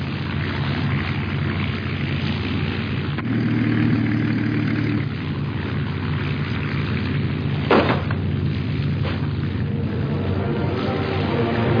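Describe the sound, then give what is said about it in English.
An overheating engine running with a steady, continuous mid-to-low drone throughout, its level barely changing, with a single brief sharp burst partway through; no voices are heard. “The engine's overheating and so am I.”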